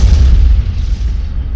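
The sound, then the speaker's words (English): An explosion among dense city buildings, heard as a loud, deep boom with a heavy low rumble that rolls on without letting up. “And then we see a light between the dense buildings, an explosion”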